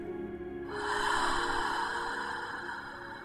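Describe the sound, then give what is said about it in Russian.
A deep breath in through the nose and out through the mouth during a guided breathing exercise: one long, airy breath that swells and then slowly fades, heard alone against a faint steady hum. “И снова глубокий вдох через нос. И глубокий выдох через рот.”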